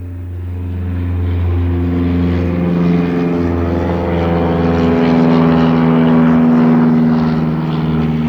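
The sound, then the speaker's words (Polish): Propeller drone of a reconnaissance biplane flying overhead on a frosty winter day: a low, steady hum rich in harmonics that swells slightly in the first second, then holds at an even, loud level throughout with no voices. “z uniesioną głową śledził lot zwiadowczego dwupłatowca”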